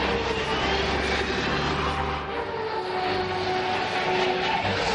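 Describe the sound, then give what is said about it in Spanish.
A metro train rumbles at Piccadilly Circus station in London at night, a dense, continuous roar with a faint steady whine running through it and no talk. “De noche, Ethan sale del metro en Piccadilly Circus.”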